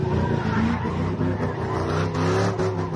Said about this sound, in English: It's been about 20 minutes since the cars first blocked off the intersection.